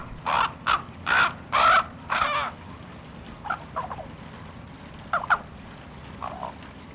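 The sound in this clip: Ravens calling around a small coastal town set among snowy mountains and old-growth forest: about five loud, harsh croaks in quick succession, followed by a few fainter, scattered calls.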